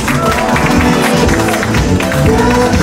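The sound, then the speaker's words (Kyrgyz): Audience applause for a young couple at a celebration program, a dense, loud, continuous wash of clapping that holds steady throughout. “2 жашка бакыт талап, бир кол чаптырыңызда.”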